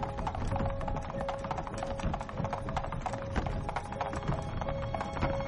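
Hooves of horses pulling a carriage clip-clop in a rapid, steady run of many hoof strikes. The sound is fairly faint and continuous, with no voices.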